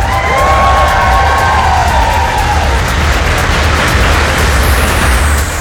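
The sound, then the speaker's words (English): Foreign Office staff cheering Ukraine's president Volodymyr Zelensky as he arrives in Downing Street for talks with the Prime Minister: a loud, continuous wash of cheers and shouts with a low engine-like rumble beneath. “Volodymyr Zelensky was also cheered by staff from the Foreign Office as he arrived for talks with the Prime Minister.”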